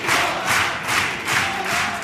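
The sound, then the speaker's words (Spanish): Crowd cheering and roaring from the audience at the Gran Teatro Falla in response to a carnival chirigota from Écija: a loud, sustained wall of voices and applause that swells and ebbs in repeated waves. “Mira la reacción del público. Así responde el Gran Teatro Falla.”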